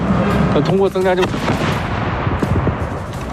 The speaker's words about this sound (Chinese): 大家可以听到这个山对面传来这个炮声啊